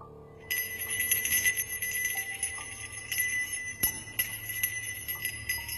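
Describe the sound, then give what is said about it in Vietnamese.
A ritual priest shakes a small hand bell during a graveside worship ceremony. It rings in bright, sustained metallic tones with many repeated jangling pulses, fairly faint and with no voices. “Ông thầy cúng bắt đầu rì rầm, lắc lắc cái chuông rồi ê a khấn.”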